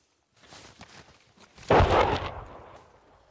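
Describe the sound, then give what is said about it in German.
Gunfire: one loud shot cracks out and rolls away in a fading decay, preceded by a few fainter scattered knocks and rustles after a moment of silence. “Er schießt jetzt da drüben.”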